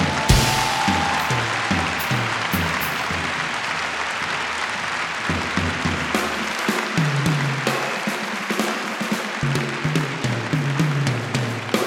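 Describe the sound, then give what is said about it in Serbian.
Sustained applause from an audience for a performer, a dense, even wash of clapping that holds at steady loudness throughout. “Molim vas jedan aplauz za ovoga Starohana.”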